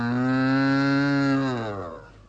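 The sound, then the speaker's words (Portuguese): An ox lows in one long, steady moo, its rich harmonics holding level, then sagging in pitch and fading away at the end. “Deus me livre de tal noivo, mugindo dessa maneira.”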